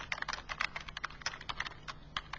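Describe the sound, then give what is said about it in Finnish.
Rapid typing on a computer keyboard while writing code: many light, irregular key clicks in quick succession, with no voices. “Eli mä aloitan tuosta 3 lainausmerkillä. Mä vaan kirjoitan”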